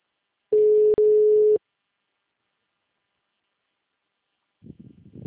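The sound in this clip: Ringback tone of an outgoing telephone call: a single steady, mid-pitched beep lasting about a second, followed by silence, then a voice starts speaking near the end.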